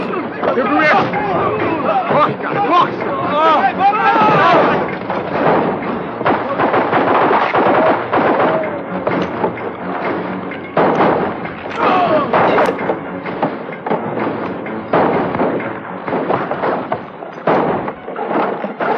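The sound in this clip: Gunfire crackles through a dubbed film scene, with bursts of shots under loud, urgent voices shouting almost without pause.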